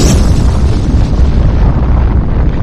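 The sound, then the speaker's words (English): Atomic bomb explosion from a video game: a loud, dense rumbling roar with heavy low-end weight that fills the entire clip without pause and carries no voices. “Where will you be when the atomic bombs fall?”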